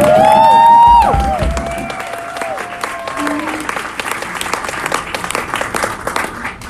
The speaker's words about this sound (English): Let's give Willa a hand for doing our sound.